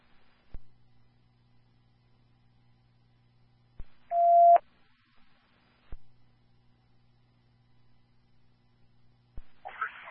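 Telephone dialing tones as an emergency dispatcher calls back an unresponsive caller: two short bursts of beeping tones, each set off by sharp clicks, with a steady low hum between them and no talking.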